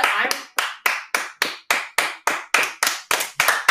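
Sharp hand claps in a steady, evenly spaced series of about a dozen crisp smacks. Each clap rings briefly and fades before the next one.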